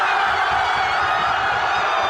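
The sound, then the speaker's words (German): A crowd in Madrid, Spain, cheering after the final whistle of a World Cup final: a dense, steady roar of many voices that holds at an even level without pauses. “Dort ist natürlich nach dem Schlusspfiff der große Jubel ausgebrochen.”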